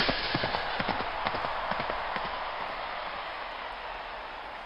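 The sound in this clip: Horse hooves gallop during a joust, a rapid, uneven clip-clop over a steady rushing noise. The hoofbeats are sharpest early and thin out in the second half.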